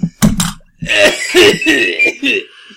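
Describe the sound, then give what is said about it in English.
A person coughs, with a couple of sharp bursts at the start. Longer, rough voiced throat sounds follow, loud and close. “All right, you're coughing.”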